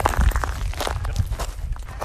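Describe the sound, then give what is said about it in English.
Footsteps crunch over broken-down cockle shells on a beach in South Australia while walking ashore from a yacht, a steady run of gritty, rough crunches. “That's the sound of broken down cockle shells crunching under my feet as I walk ashore.”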